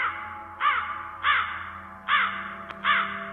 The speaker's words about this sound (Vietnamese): Bất chợt từ trên những cành cây cao quanh nghĩa địa, vài con quạ đen bất thình lình vỗ cánh phành phạch rồi bay vút lên, kêu lên từng tiếng thê thiết giận người.